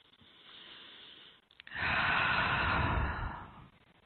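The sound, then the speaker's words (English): A deep breath taken during a grounding meditation: a softer breathy stretch, a brief pause, then a longer, louder, rushing breath that fades out. No one talks. “Let's take a breath.”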